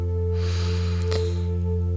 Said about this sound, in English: We take another deep breath in,